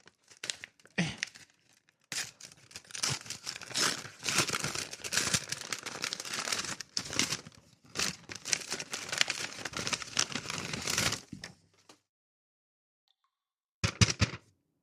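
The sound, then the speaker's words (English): Paper crinkling and tearing as an envelope is opened by hand: many dense, scratchy bursts run almost continuously for about ten seconds, then after a pause a short final rustle. “I'll open it on the air. This week, we got this here check or something. It might be a check. Probably a check. It's a letter. It's a... envelope? It's an envelope.”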